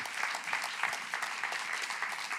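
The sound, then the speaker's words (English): An audience applauds to welcome a speaker to the stage, with dense, even clapping that holds steady throughout. “Would you guys please welcome Greg up to the stage? Give him a big hand.”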